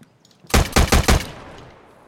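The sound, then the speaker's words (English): Four loud, rapid gunshots from an unsuppressed gun in a video game, evenly spaced in a quick burst and followed by a fading tail. “This gun is quite loud. Even with the suppressor, how can it still be so loud? It doesn't have a suppressor.”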